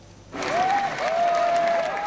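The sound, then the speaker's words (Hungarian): Crowd applause at a mass demonstration against Nazism greets a parliamentary group leader. Dense, steady clapping starts abruptly and carries on to the end. “Taps fogadta a Fidesz frakció vezetőjét a tömegtüntetés a nácizmus ellen elnevezésű rendezvényen.”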